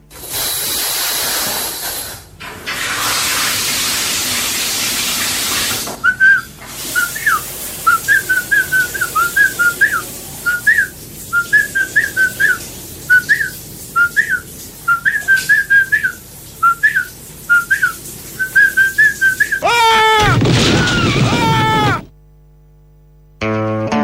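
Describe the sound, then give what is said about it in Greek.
A man whistles in the bath, a tune of many short, high, repeated notes over a steady hiss, ending in a brief, louder rough burst and then quiet. “εμείς εδώ θα πάμε τώρα να ακούσουμε τι κάνει στο μπάνιο του, τι σφυρίζει”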